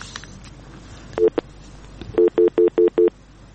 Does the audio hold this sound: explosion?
no

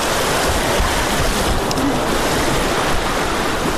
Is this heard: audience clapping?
no

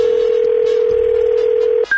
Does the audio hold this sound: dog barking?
no

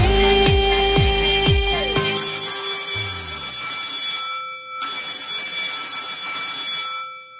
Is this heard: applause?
no

